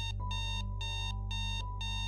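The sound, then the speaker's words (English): An alarm clock on a nightstand goes off with repeated electronic beeping. Bright bursts of tone pulse in an even rhythm over a low steady hum. “suddenly the alarm clock on the nightstand went off.”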